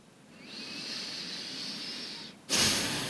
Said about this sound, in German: Und vielleicht hast du das gehört, bei mir kommt sofort ein tiefer Atemzug im Bauch.